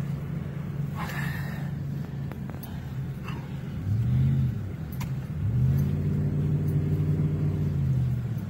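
A car engine revving and accelerating on pavement while escaping a wildfire in Gatlinburg's Chalet Village. A steady low rumble surges twice into louder, rising revs, with a few faint clicks and knocks over it.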